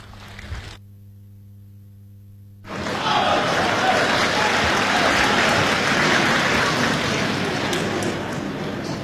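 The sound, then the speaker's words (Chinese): Audience applause at a live Chinese crosstalk comedy show greets a pair of comic performers. It breaks out after a short stretch of low, steady hum and continues as a dense, even wash of clapping to the end. “谢谢您这么稀稀拉拉的掌声，谢谢大家。”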